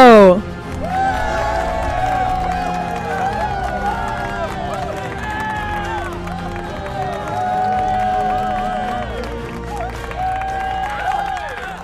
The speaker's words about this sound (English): Ladies and gentlemen, put your hands together for Josh Scarpello!